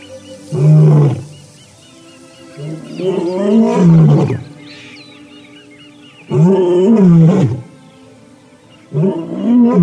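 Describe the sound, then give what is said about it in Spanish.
Lions roaring at dawn in the African savanna. Four loud, deep, moaning roars rise and fall, with quiet pauses between them. The second roar is the longest. “el amanecer en la sabana africana. Esta es la mejor hora para que los leones transmitan su mensaje.”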